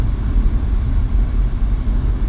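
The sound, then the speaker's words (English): A car drives along an unfinished highway, producing a steady, loud, low rumble of road and engine noise without breaks. “Yeah, so right now we're driving. Yeah, as I said before, like, we're driving to the gun store.”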